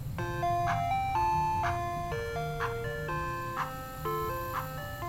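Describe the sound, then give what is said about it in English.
An ice cream truck plays its jingle: a bright, chiming melody of steady electronic notes that repeats through the whole stretch, loud and alone with no voices. “I guess, I don't know, is it a kids-only policy for ice cream trucks?”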